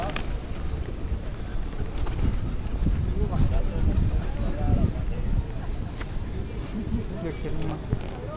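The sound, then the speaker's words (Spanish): Pigeons gather around people in front of a city hall, with soft cooing and fluttering wingbeats mixed into a steady outdoor murmur while people talk nearby. “Tenemos palomas alrededor nuestro.”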